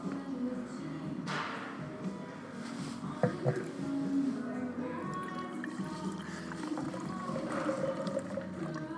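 Wine pours into a glass as a quiet, continuous gurgling trickle of liquid, with a few small drips and splashes scattered through a long, steady stream.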